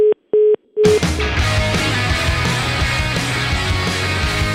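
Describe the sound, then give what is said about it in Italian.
Telephone line tone after a caller hangs up: three short, steady mid-pitched beeps, the last one clipped, then dense music takes over loudly. “sbatte giù il telefono”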